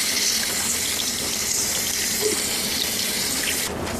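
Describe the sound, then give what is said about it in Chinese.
Tap water runs steadily as hands and wrists are washed and rubbed back and forth under it. A constant, even hiss plays alone throughout, softening slightly near the end. “我们洗我们的手腕，来回揉搓交替洗，整个洗手过程大于20秒。”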